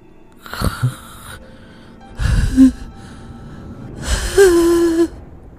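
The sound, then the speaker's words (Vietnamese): A voice imitates an old man's wheezing, asthmatic hiss as he gapes in fright, coming in three strained bursts separated by pauses, the last one longer. “Lão rít như là người bị hen suyễn, mồm của lão há hốc cả ra.”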